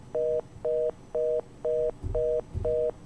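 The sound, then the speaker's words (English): After a telephone call is cut off, the line gives six evenly spaced beeps, each a steady, clean two-note tone of equal length separated by short gaps, over a faint background hiss. “I suppose your phone got cut off there”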